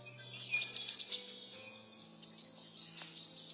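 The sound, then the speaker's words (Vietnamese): A bird calls in a dense, tangled forest full of vines, giving many quick, high chirps in irregular bursts over a faint low hum. “Bỗng giật nảy mình vì tiếng chim kêu.”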